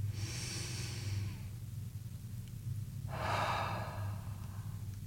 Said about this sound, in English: And please join me in taking a breath.